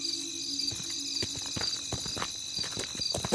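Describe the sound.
Footsteps of characters walking: an even run of crisp, clopping steps over a steady, thin high-pitched hum.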